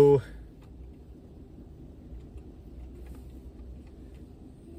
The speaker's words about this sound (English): Stuck in traffic thoughts.